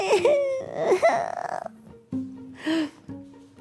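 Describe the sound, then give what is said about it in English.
A reader of a children's book voices a whining child, imitating the sound with wavering, drawn-out cries that give way to shorter, lower whimpering tones. “His whining is driving me crazy.”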